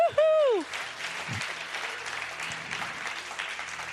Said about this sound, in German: gebt ihr mal einen Applaus hier allen am Livestream.